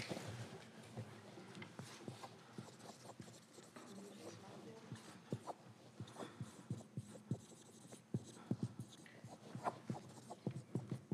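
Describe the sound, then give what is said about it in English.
Handwriting as notes are jotted down: many brief, scratchy pen strokes in an irregular rhythm throughout, over a steady low hum. “Let me see if I can write some stuff down here.”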